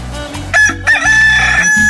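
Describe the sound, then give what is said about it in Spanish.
A rooster crows in one long, sustained, loud call lasting over a second, heard against a steady low background hum. “¡Qué bonito canta mi gallo! Para que se levante y se motive en este lunes.”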